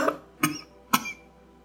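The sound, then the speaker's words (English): A person coughs suddenly in a short series of three sharp, breathy bursts, the first softer than the other two, with no talk around them. “So supposing I cough a lot suddenly”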